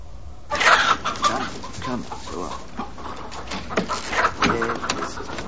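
Chicken clucking in a coop aboard a sailing ship at sea, a run of choppy, bright clucks and squawks over a low, steady background noise.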